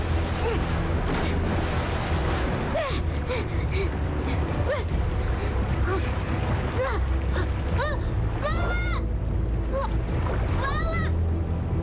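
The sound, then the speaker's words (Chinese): Churning, splashing river water as a mother and child swim across against a strong current; a steady rushing noise with gasping, exclaiming voices breaking over it. “在河水中努力向对岸游去”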